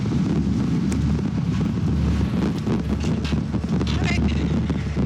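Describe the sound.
Wind blows across the microphone outdoors in Alaska, making a steady, loud low rumble with constant buffeting that runs through the whole stretch.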